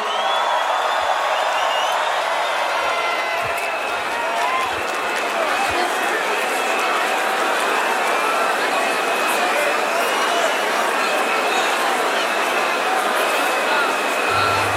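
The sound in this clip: Music festival crowd cheering: a dense, continuous roar of shouting, whoops and whistles that stays loud and steady from start to finish.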